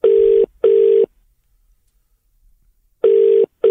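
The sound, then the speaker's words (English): Telephone ringback tone on an outgoing call: a loud, steady, mid-pitched double ring, a pause of about two seconds, then a second double ring that is cut off at the end, with no voices. “We'll give him a quick ring now.”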